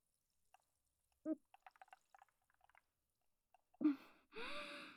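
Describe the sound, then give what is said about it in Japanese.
Homemade cola is sipped in a run of faint, small wet clicks and gulps, followed by a person's voice. “はい、できました。では飲んでみたいと思います。”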